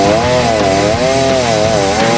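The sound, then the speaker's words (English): A chainsaw cuts through a heavy log with a loud, continuous rasping buzz whose pitch wavers up and down as the chain bites into the wood. “All right, chainsaw is starting. He's cutting.”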